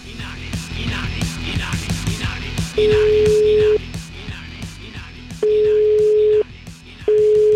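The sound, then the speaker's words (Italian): Telephone ringing tones sound while a call is placed, three flat, steady beeps of about a second each separated by pauses, with people talking throughout underneath. “io proverei a chiamare, ma proprio direttamente”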